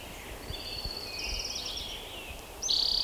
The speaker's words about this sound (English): Orange crown warbler in the background.